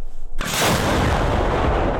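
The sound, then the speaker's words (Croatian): An American howitzer of an artillery brigade fires near Chasiv Yar at the front line. A single sharp, loud blast comes just after a quiet start and is followed by a long, heavy rolling rumble. “24. artiljerijska brigada koristi američku haubicu u blizini grada Časiv Jar. Obično pucaju na pješadiju koju uoče na prvoj liniji fronta, a ruske trupe, kažu, redovno napadaju.”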